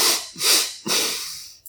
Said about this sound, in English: where we begin only with the nasal breathing, only nose breathing, and we breathe into the belly first. The second rep is into the heart, and then exhale.